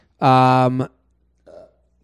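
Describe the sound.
A single loud, deep burp lasts about half a second with a steady voiced tone, followed by a brief, much fainter guttural sound.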